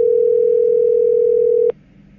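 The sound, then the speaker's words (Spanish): Telephone ringing tone heard while a call is being placed: one steady, mid-pitched tone holds for about 1.7 seconds, then cuts off with a click, leaving faint line hiss. “está sonando. Estamos llamando a Fernando de la Rúa”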